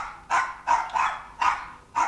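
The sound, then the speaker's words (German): A small dog barks alone in a few sharp, high-pitched yaps, loud and spaced by short pauses, with no voices present. “Ach, der widerwärtige kleine Hund. Willst du wohl, zieh ab.”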